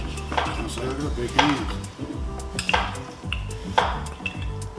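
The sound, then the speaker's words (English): A cooking pot's lid is opened amid clinking and clanking metal kitchenware, with several sharp metallic knocks and rattles over a low background hum. “Oh, I can open the lid for you.”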